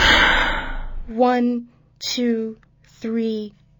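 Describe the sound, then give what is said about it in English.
A deep exhale during a breathing exercise: a breathy rush of air lasting about a second, then three short voiced sounds from a voice. “Again, breathe in. 1, 2, 3, 4, 5. And exhale.”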